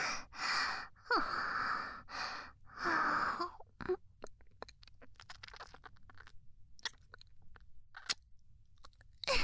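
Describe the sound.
Chewing and biting mouth sounds: a few breathy bursts at first, then many small wet clicks and crunchy bites scattered irregularly, fairly faint and without talk.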